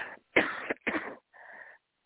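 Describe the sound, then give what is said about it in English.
Coughing from a person who is unwell: a few short, harsh bursts separated by brief gaps, ending in a thinner, wheezy sound. “I'm resting because I'm about to start coughing in this time.”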